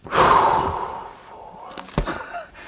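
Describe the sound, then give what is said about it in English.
A tour guide's deep breath on a haunted tour: a loud, breathy rush that swells quickly and fades over about a second, followed by a few faint crackles and softer breathy noises. “when your guide takes a deep breath on a haunted tour.”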